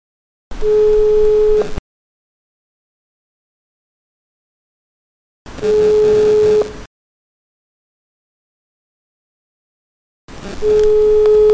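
A phone's call-waiting tone signals another incoming call: three steady, mid-pitched electronic beeps, each a little over a second long, separated by long silences.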